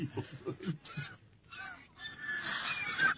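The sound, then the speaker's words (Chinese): Swans calling as they land on a palace rooftop, with a few nasal, honking bursts at first, then higher, noisier cries. The calls are fairly faint and uneven. “看，天鹅。 天鹅落到翠微宫宫顶上了。”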